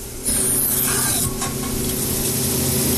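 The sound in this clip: The black lid of a gray metal liquid nitrogen cryogenic storage unit, shaped like a big thermos, is twisted open. A loud, continuous hissing and scraping rush starts abruptly and carries on for about three seconds.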